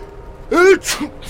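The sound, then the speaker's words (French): A single sneeze brought on by bone dust: a voiced, drawn-out 'ah' breaks into a sharp, breathy burst, followed by a short, fainter vocal catch, with no talk around it. “Qu'as-tu à éternuer ainsi ?”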